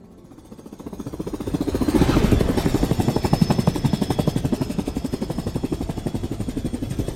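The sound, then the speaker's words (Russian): Helicopter in flight, its rotor beating out a fast, steady chop that swells over the first two seconds and then holds loud and even to the end, with no voices. “Вертолет летит в воздухе.”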